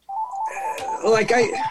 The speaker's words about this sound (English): I'm sorry, my phone's ringing.